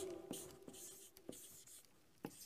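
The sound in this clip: A pen scratches across paper in faint, dry strokes, with a few sharper ticks spaced unevenly through the stretch and no voices.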